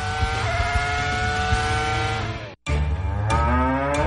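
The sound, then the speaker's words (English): Cattle mooing, cows from a herd of 60 up for dispersal sale: long, low, drawn-out tonal moos with rich harmonics, broken by a brief silence partway, then continuing loudly. “Farmers Regional Livestock Market of Glasgow will be selling a complete herd dispersal belonging to the late Dennis Smith of the Rocky Hill community in Barron County. This herd will consist of 60 cows.”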